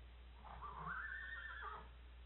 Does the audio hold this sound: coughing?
no